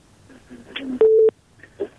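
A telephone dialing tone as a new call is taken on a radio call-in line: one short, steady electronic tone burst stands out clearly among faint background sounds.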